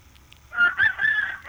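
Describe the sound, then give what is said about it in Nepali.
A rooster crows once, a hoarse, strained call broken into a few pulsing swells that holds to the end. It is fairly loud and heard alone, with no voices. “कस्तो मजाले भाले बासिराखेको थिएँ कि।”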